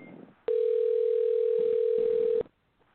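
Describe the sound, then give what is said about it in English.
A steady telephone dial tone while a call is placed, holding one unbroken pitch for about two seconds before cutting off abruptly, with faint sound just before it. “But let me give Michael Parks a call.”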